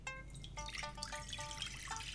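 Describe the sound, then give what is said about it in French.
Lukewarm water poured into a salad bowl: a quiet, steady trickle broken by bright, ringing gurgles and drips that change pitch as the bowl fills. “Donc avec votre eau tiède froide, vous la glissez dans un beau saladier.”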